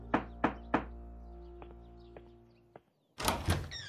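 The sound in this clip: Knocking on a house door: three sharp, evenly spaced raps, then a few softer taps, and finally a louder burst of clattering thuds.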